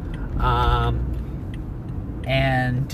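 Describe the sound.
A car's low, steady engine and road rumble fills a drive home, running beneath someone talking throughout.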